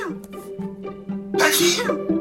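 A single loud, breathy sneeze bursts out past the midpoint and dies away quickly. Steady background tones run beneath it throughout.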